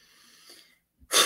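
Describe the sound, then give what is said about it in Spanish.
A deep breath drawn in: a loud, rushing, breathy intake bursts out after a brief hush, following faint, soft airy noise at the start. “Tengo que respirar profundo para hablar de la cartica de este CEO.”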